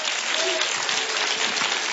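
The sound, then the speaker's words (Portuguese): A church audience gives a strong round of applause to welcome a pastor, with dense, even clapping from many hands that stays loud and continuous throughout. “E vamos receber o pastor Milton com um aplauso bem forte para Jesus.”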